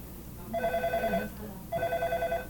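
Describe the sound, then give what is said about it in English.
A telephone rings in two bursts of bright, trilling bell tone, each lasting under a second, with a short gap between them over a low background hum. “Yeah, wonderful phone.”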